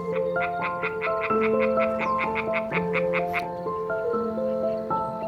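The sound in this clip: European tree frogs, small amphibians of 3–4 cm, call at a pond among fields in a loud, steady chorus. Rapid, evenly spaced croaking pulses repeat over layered sustained trilling, with no voices.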